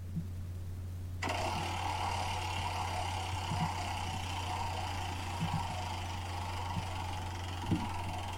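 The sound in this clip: A prize wheel spins with a smooth, steady whirring that starts abruptly after about a second of near-quiet and then runs on evenly, with a few faint ticks underneath.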